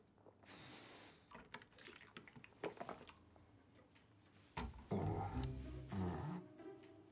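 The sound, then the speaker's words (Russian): Someone drinking water from a bottle: faint liquid sloshing and wet squishy sounds with a few soft clicks, then a louder cluster of gulping swallows near the end. “пьет воду с бутылки”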